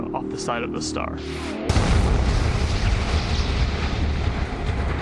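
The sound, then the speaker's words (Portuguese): Deep explosive rumble of a fireball expelled from the side of a magnetar, a neutron star, bursting in suddenly after a brief stretch of voice and continuing as a loud, dense, low roar to the end. “O campo magnético reconfigura-se com menos energia, e quando isso ocorre, uma bola de fogo é expelida pelo lado da estrela.”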